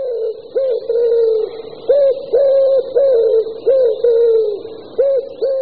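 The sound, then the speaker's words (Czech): A male wood pigeon coos in a city in a rhythmic series of soft, low, hooting phrases, each a muffled double-note coo with short pauses between, repeating steadily with no voices. “Takže i ve městech můžete slyšet roztoužené houkání samce hřivnáče.”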